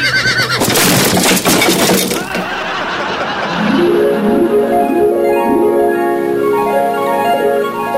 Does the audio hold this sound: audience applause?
no

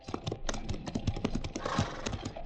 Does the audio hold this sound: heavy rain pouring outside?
no

